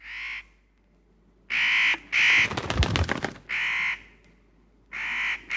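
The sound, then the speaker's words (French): A black bird caws five harsh, evenly pitched times, with a burst of dry rattling clicks between the third and fourth calls and quiet gaps between the others. “Regardez, c'est l'oiseau noir.”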